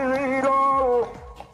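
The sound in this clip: A street bottle collector's drawn-out call rings out, a loud sustained tonal shout that bends downward near its end before dropping away into quieter background noise.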